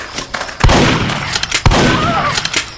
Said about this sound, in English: Just a grenade.